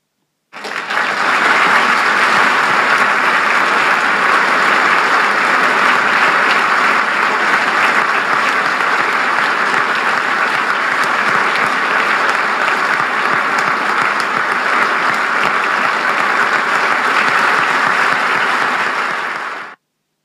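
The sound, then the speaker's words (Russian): Loud, sustained applause fills a hall as the audience rises for a standing ovation at a celebration. The clapping is dense and steady, starts abruptly and holds at an even level for about nineteen seconds with no talk. “Зал взорвался овациями. Все, кто еще не встал на ноги, сделали это и повернулись лицом к столу с виновниками торжества.”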